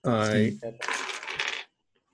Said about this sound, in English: That's an 8-sided dice.